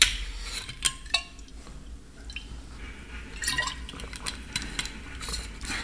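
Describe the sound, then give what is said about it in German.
Water being poured and sipped, heard as faint liquid splashes and a few brief soft clinks over a quiet background, with no talking. “Und ich muss mal einen Schluck Wasser nehmen.”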